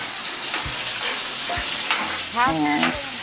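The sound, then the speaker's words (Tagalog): Half a kilo of ground beef sizzles as it is sautéed in a pan, with a constant frying hiss and a few scraping stirs of the spoon. “Half kilo po ng ground beef. Ganito lang po, igisa lang po natin.”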